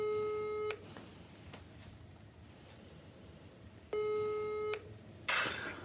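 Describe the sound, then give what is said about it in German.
Ringback tone of an outgoing telephone call on speaker: two long, steady electronic tones about three seconds apart, with quiet line hiss between them and a brief click near the end. “Warte, ich ruf ihn an.”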